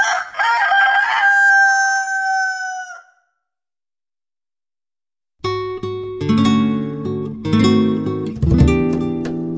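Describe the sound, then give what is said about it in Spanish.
A rooster crows once, a loud, strained call lasting a few seconds and fading out, followed by silence and then a dense, tonal passage. “El gallo, ya libre, estiró sus cansados miembros, agitó las alas y cantó.”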